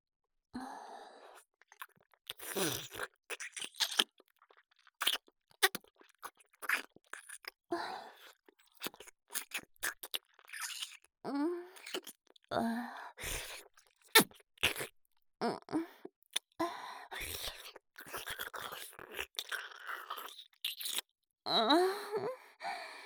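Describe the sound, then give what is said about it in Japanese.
Wet mouth sounds of sucking on a tongue: many soft slurps and smacks in irregular bursts, with breathy sighs and moans between them, quiet and with no talking. “舌出して吸ってあげる。いくね。”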